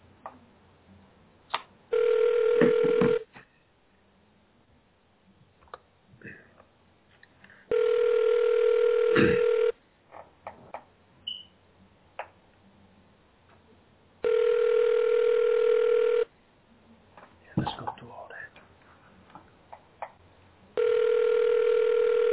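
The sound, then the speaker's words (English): Telephone ringback tone heard while calling a locker room: three long, steady, buzzing rings at regular intervals, with a fourth starting at the end, and faint clicks and rustling in the gaps between rings. “We're dialing straight to the locker room, by the way.”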